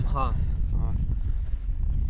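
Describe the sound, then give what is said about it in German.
Wind buffets a microphone on a mountain summit where gusts reach 380 km/h, a dense low roar that keeps up throughout, with brief fragments of a voice breaking through. “Ich versuche das Mikrofon ein bisschen vor dem Wind zu schützen.”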